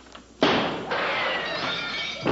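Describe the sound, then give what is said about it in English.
Window glass breaks on a film set with one sudden loud crash, followed by a bright, sustained scatter of tinkling shards that slowly fades. “Broke the window.”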